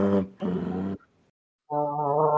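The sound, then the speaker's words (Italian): A small truck's horn honks three times with a steady, buzzy tone: a short blast, then a longer one, then a pause before a final sustained honk. “Ingrani la prima marcia e parti. Suona il clax.”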